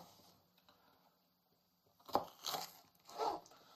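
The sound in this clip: A knife cuts through a bell pepper, giving three crisp, crunchy bursts after a quiet stretch of faint ticking, all fairly soft.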